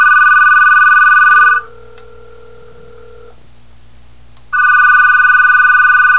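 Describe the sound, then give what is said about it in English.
Ringing of an outgoing call to a Skype-in number, heard over a speakerphone: two long, loud electronic ring bursts with a quiet gap between them, and no voices. “So I'm going to dial my Skype in number, and I'm turning it on to the speakerphone so you can hear it.”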